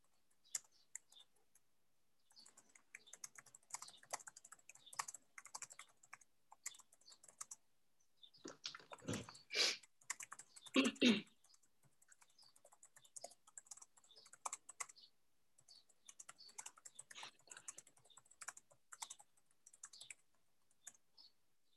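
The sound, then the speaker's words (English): Someone types a message into a chat on a computer keyboard, faint bursts of rapid key clicks separated by short pauses, with a few louder clacks midway. “Okay, and I'll just put a... And I'll just write something into the chat.”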